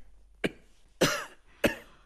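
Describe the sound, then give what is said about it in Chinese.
Harsh coughing from a person said to have a lung nodule: three loud, separate bursts spaced a little over half a second apart, the first short and sharp, the next two longer and rougher, with no talk. “你现在天天咳嗽吗？”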